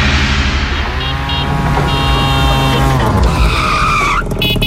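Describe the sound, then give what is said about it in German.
A tuk-tuk motor rickshaw engine runs loud and continuous, a buzzing harmonic drone whose pitch dips and then climbs sharply near the end, with no pauses. “Wir hören nochmal, so klingt das Tuk-Tuk.”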